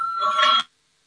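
An electric bell rings to call a parliamentary vote. It is a single sustained burst of about half a second that cuts off abruptly into silence.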